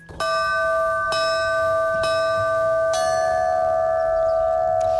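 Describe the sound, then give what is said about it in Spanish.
Church bells ring a special peal made for an eclipse: about four loud, evenly spaced strikes, each leaving a long, bright ringing tone that overlaps the next, with no voices. “Pues es un repique específico para el eclipse del miércoles”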